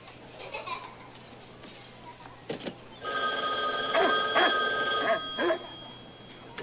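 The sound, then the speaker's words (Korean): A telephone ringing on a call placed from a payphone: low, quiet background noise first, then a steady electronic ring tone that holds for a few seconds before cutting off. “이런 사실을 모른 채 포스터는 전처 베스에게 다시 공중전화를 걸지만 그녀의 대답은 싸늘하기만 합니다.”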